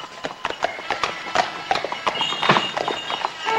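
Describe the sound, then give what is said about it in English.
Hooves of a two-horse carriage clip-clop through a snowy evening: many brisk, even hoofbeats in a steady trotting rhythm at moderate loudness. “watching as the driver snaps his reins and the carriage rolls away.”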